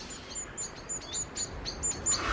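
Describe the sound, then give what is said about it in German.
Two blackbirds squabble outside an open window, giving a rapid series of short, high, sharp chirps at a fairly even pace. The calls are moderately loud over a soft, steady background hiss. “Das Fenster ihres Zimmers steht offen. Draußen streiten zwei Amseln.”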